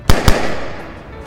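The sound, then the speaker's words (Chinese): Two sharp gunfire bangs in quick succession form a volley sound effect of Date clan soldiers firing on command, each followed by a rumbling, noisy tail that fades out. “左线预备，右线预备，全线预备，开保险，开始射击。”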